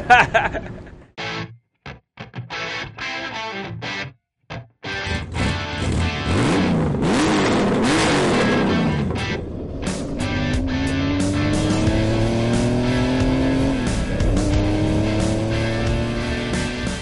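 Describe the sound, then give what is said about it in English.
A street-legal IndyCar race car engine is heard. It starts with some sharp knocks and clatter, then settles into a loud, steady engine roar that climbs in pitch as the car accelerates. “So we bring this street legal IndyCar around all over the nation.”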